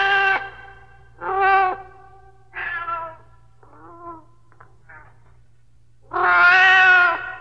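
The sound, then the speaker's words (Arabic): A cat meows several times, short bright calls separated by pauses, with two fainter, quieter mews in the middle and a final long, loud, drawn-out meow. “مواءها يناديني فأسرع إليها فتقترب مني وكأنها تقول أطعميني”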